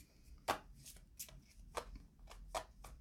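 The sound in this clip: Tarot cards are handled and shuffled as one is picked, heard as a faint series of soft, snappy riffles and papery flicks spaced at irregular intervals.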